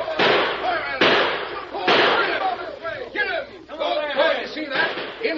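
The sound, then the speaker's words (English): Gunshots in a radio western drama ring out as several sharp, loud bursts at irregular intervals, mixed with shouting voices and commotion. “We hear shooting.”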